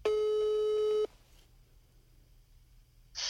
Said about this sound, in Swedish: Men ska jag ringa honom då?